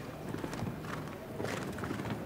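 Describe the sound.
Hoofbeats of a show jumping horse cantering toward a water jump, faint rhythmic thuds in a steady canter pattern under a wash of background noise.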